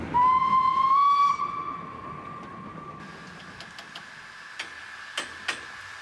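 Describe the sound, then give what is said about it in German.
A 111-year-old Württemberg steam locomotive sounds one loud, steady whistle blast after a day's running on the Wutach Valley line in the southern Black Forest. Steady hissing steam follows, with a few sharp clicks near the end. “Feierabend für eine Lok, die einen harten Arbeitstag hinter sich hat.”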